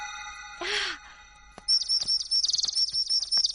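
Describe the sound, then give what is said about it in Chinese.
Small birds chirp in a quick run of high, bright, repeated tweets. The calls come in clustered bursts of varying loudness after a quieter, breathy opening. “哦，小鸟，你们也想吃吗？哦，我忘了，你们不吃这个的。”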